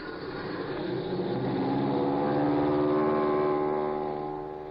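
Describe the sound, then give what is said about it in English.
Aircraft motor starting as a radio drama sound effect, a droning engine that swells and climbs in pitch, then holds a steady, buzzing roar with no voices. “Okay. Here goes the motor.”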